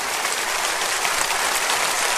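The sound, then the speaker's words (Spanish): A church audience applauds in thanks during a sermon. The clapping is dense, steady and continuous throughout, with no talk over it. “Dele un aplauso de agradecimiento.”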